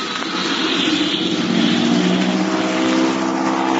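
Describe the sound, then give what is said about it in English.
A propeller airplane's engine drones loudly as the plane takes off to clear a line of trees. The steady humming roar holds layered tones throughout and swells slightly partway through. “They're going to have a mighty tough time to make a quick takeoff to clear those trees.”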